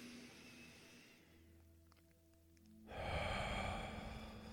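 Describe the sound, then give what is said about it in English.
Deep breathing for a guided meditation, with a breath drawn in through the nose and let out. Airy breath noise gives way to a quieter stretch, then a louder, sustained breathy rush fills the end. “To take a deep inhale in through the nose, and when you exhale, I want you to let that feeling go, just let it melt away. So we'll inhale,”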